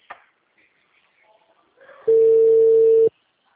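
A single steady ringback tone sounds on the line while a phone call rings out. It holds one loud, mid-pitched note for about a second, following a stretch of faint background noise.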